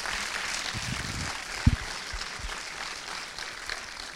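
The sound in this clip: Audience applause welcomes director Jon Favreau at a live event, a steady, fairly faint wash of clapping with a couple of soft low thumps.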